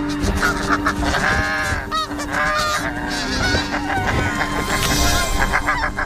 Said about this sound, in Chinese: 为争夺最安全的筑巢点，两对雪雁夫妇展开了激烈的争斗。